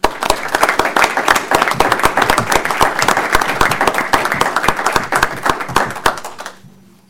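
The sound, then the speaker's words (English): Loud applause from a meeting audience: many hands clap in a dense, even patter for about six seconds, then fade out quickly into near silence. “So I just very quickly, a big round of applause, please, for Suzette.”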